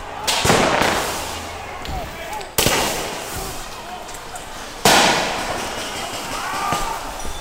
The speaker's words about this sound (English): Fireworks were set off and tear gas canisters were fired at protesters.